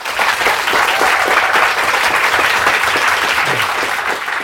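An audience applauds steadily to welcome a panel at a science event. The dense, even clapping stays loud and continuous throughout.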